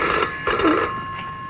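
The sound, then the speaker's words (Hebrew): Red rotary dial telephone ringing in a few bright, buzzy bursts with short gaps between them, heard alone without voices. “טלפון חוגה, אני מזהה את הטלפון חוגה. כן, היה טלפון, זה הטלפון האדום דווקא.”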